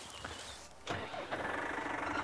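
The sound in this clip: A car engine cranks and catches abruptly before driving off during a cattle roundup, then settles into a steady, rumbling run that continues to the end.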